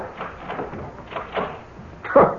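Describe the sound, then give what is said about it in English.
A door being locked, heard as a single short, solid clunk near the end after faint low shuffling. “Ah, what good is locking that door going to do?”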